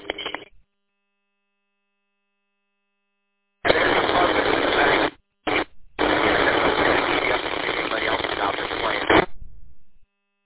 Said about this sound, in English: I can tell two to three are coming in pretty easily. A little bit of heterodyning, different tones.